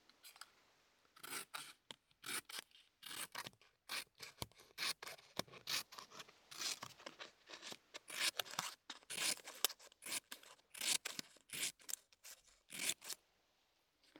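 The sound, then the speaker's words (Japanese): Scissors snip through paper in many quick, crisp cuts with an uneven rhythm of short bursts and brief pauses, moderately loud and with no talking. “紙を切る音だよ。”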